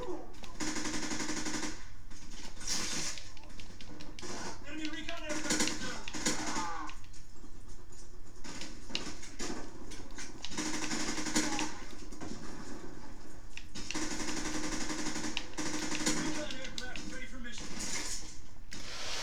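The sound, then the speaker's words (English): Submachine gun firing in a video game, rapid bursts of automatic gunfire recurring throughout amid dense, busy game noise. “Do I not have the increased bullet damage with this gun? I mean, it's a submachine gun. Should work.”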